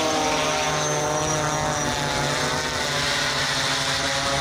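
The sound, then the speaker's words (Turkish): A kamikaze drone flies with a steady, loud propeller drone, its buzzing engine holding an even pitch throughout with no talk over it. “İran balistik füzelerle beraber kamikaze dronlarla ABD-İsrail saldırılarına karşı koymaya, teknolojik dezavantajını kapatmaya çalışıyor. Körfez ülkelerinde bu ses endişe yaratıyor.”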